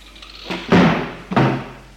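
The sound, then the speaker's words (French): Cellar door pushed shut: two heavy, dull thuds about half a second apart, each with a brief rattling decay, standing out loudly over a faint low hum. “il entre dans la cave, pousse la porte pour la fermer.”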